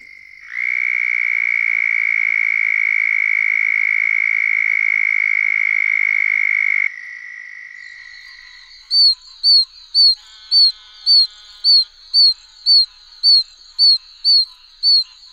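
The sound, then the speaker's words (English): Calls of a southern toad and an oak toad. A loud, high, steady trill lasts several seconds and fades, then a quieter pause follows. Next comes a rhythmic series of about a dozen short, shrill, chick-like peeps. “If you guessed the southern toad and the oak toad, you get a Virginia amphibian A+.”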